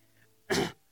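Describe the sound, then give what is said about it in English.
Someone clears a dry throat once: a brief, rough, breathy burst lasting a fraction of a second, alone over a quiet background. “Excuse me, a little dry in the throat.”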